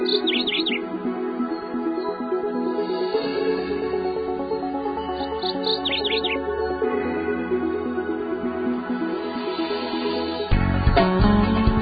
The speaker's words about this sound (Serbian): Sad možemo da pustimo pevci ptičice da najave da je kraj.